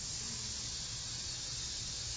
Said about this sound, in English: Okay, again, breathing in through a straw. And hiss.